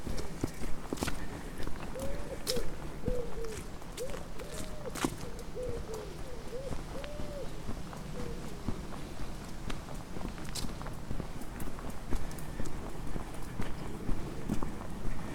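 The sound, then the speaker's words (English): Footsteps on a walk through a coastal country park, a continuous irregular patter of steps that keeps an even pace at a modest level throughout. “I'm walking through Fort Victoria Country Park.”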